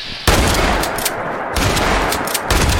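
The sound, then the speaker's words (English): Shotgun blasts ring out in a video game, a few loud, sharp bursts spaced over a couple of seconds. Each is a broad, crackling boom that trails off briefly before the next. “A few more shotgun shots to the face, and these guys should be done”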